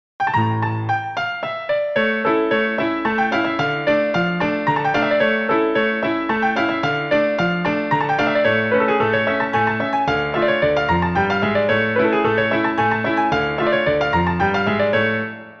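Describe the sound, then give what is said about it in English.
Solo flamenco guitar plays a fandango falseta in a minor key: a continuous stream of quick plucked notes and ringing chords, moderately loud and without voices, flowing on for about fifteen seconds. “A fandango falseta in minor key sounds like this.”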